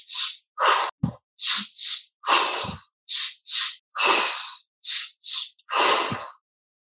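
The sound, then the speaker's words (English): Fast, forceful breathing comes from a guided breathing exercise, as about a dozen sharp, hissing breaths follow one another in a quick, steady rhythm. Brief silences separate the breaths, and no other sound is heard. “Keep going. Keep that faster paced breath up.”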